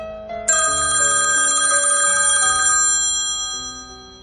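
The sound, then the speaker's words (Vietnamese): An electronic melodic ringtone plays from a mobile phone: loud, bright tones that step through a short tune, sounding alone and tapering slightly at the end. “Tiếng chuông điện thoại vang lên, đánh vào tâm lý hỗn độn của Ninh Dương”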